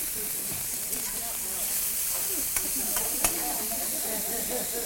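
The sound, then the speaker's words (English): Meat sizzling as it cooks in a pan gives a steady, even hiss with a few small crackles and pops, while low voices murmur beneath. “I just want to make sure the meat is cooked. It's going to cook a little bit more.”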